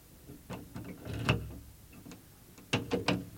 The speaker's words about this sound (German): Der Schlüssel dreht sich. Der Schrank ist offen.